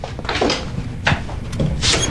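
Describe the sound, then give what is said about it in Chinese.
A door being opened in a village home: a few short, dull clunks and scrapes spread over about two seconds, moderately loud, with no talk. “雅静来了，开门去。”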